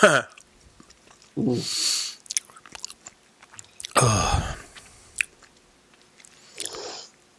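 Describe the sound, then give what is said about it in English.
Chewing of sour Skittles candy, orange flavour, in a few separate crunchy, moist bursts of mouth noise with quiet gaps between them. “Now it just tastes like orange Skittles, which are delicious.”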